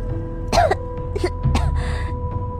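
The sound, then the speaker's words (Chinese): A few harsh coughs and rough throat clearing from someone who has choked on a mouthful of food, coming in uneven bursts. “一口食物硬是卡在喉咙口，胀得我满脸通红。我抖着手指向魏凌风，只呛了许久，才挤出一句话”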